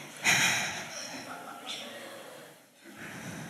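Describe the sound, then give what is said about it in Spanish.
A slow exhaling breath from a person: a loud, breathy rush near the start that tapers away, followed by softer breath noise and a fainter second exhale near the end. “El perdonar es exhalar, así. Y cuando uno exhala se siente liviano.”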